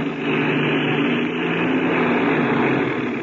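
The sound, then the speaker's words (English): A light airplane's engine drones steadily as it taxis fast across a soft spot in a dry lake bed, a loud, even rumbling roar that holds without a break from start to finish. “We're hitting that soft spot in the lake bed. I'm going to taxi real fast. Okay, go ahead. By getting up a little speed, the wings will take some of the weight off the wheel.”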